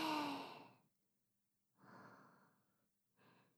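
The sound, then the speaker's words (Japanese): Slow breathing in and out by a person during a procedure, with a finger inserted on the in-breath and withdrawn on the out-breath: a long sighing exhale fades out, then, after a pause, two softer breaths follow. “抜くときに吐いてみてください。はい、吸って、吐いて、”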